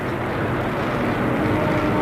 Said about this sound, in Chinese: 93架由伊尔28轰炸机和歼5米格17组成的歼击机群从天安门广场凌空掠过，与地面部队形成空地一体的壮观景象。